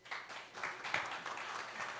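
Faint audience applause at a live comedy show: soft, scattered clapping with a few small swells, staying quiet throughout.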